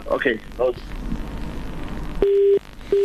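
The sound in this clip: A phone line gives a steady electronic beep after a caller's airtime runs out, during a call-in discussion on the election and youth unemployment. Noisy talk on the line comes first, then one long flat tone and a second that begins just before the end.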